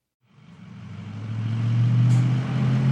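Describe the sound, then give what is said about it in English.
A white pickup truck drives on a road in North Fair Oaks, San Mateo County. Its engine rumble fades in and builds to a steady low drone, with no voices. “are driving in his white pickup and just crossed the border from Menlo Park into the community of North Fair Oaks in San Mateo County”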